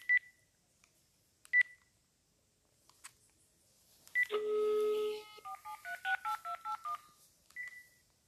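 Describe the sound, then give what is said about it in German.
Phone dialing in a video game: a few sparse beeps, then a longer steady tone and a rapid run of short, bright dial tones at shifting pitches, ending with one last beep. “Ja, ich rufe an. Ich soll ihn anrufen.”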